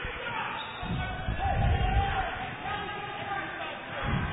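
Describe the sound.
Basketball dribbled at half court during a game: dull, low bounces come through under steady play-by-play commentary.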